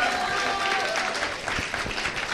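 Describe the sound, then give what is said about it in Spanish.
Audience applause at a feminist self-defense debate event: steady, dense clapping from a crowd that continues through the whole clip at an even loudness. “Un gran aplauso para Maltena”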